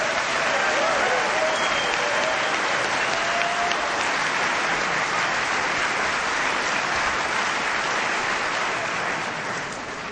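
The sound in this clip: Audience applause at a Bristol reunion birthday meeting welcoming a speaker to the front: a dense, steady wash of clapping that holds for about ten seconds and eases slightly at the very end.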